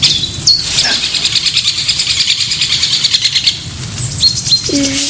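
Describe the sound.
Great spotted woodpecker calling near a dead tree: a few sharp, high-pitched calls stand out over a constant high chirring of other birds.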